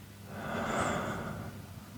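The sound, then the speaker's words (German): A single slow, airy breath swells and then eases off as someone breathes deeply in and slowly out during a relaxation exercise; soft and alone, with no talking. “tiefen Atem tief einatmen und langsam wieder ausatmen. Na, ich mache das jetzt einfach mal, kannst du auch gerne mitmachen. Einatmen und wieder ausatmen.”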